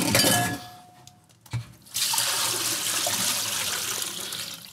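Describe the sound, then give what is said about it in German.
Water poured off cooked vegetables: an early splashing burst and a dull knock, then a loud, steady rushing pour that lasts to the end. “Was wir jetzt machen, ist das hier abschütten.”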